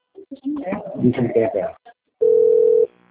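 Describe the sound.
A steady telephone dial tone sounds while a call is being placed, one unbroken mid-pitched tone with a buzzy edge that holds for under a second and then stops. People talk just before it.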